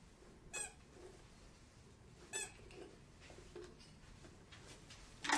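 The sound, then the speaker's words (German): A child's toy telephone squeaks a few times in brief, sharp bursts, faint against a steady background hiss. “Quietscht richtig schön, ne?”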